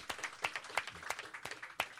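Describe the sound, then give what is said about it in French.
Applause from an audience greeting a performer on stage, faint and patchy, with sharp irregular claps spaced unevenly across two seconds and no voices. “pour la première fois, on peut l'applaudir.”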